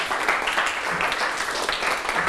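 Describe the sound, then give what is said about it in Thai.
Students in a mathematics classroom applaud a classmate, giving a short burst of steady, fairly dense clapping at moderate loudness from start to finish. “ปรบมือให้ลลนาหน่อยครับ”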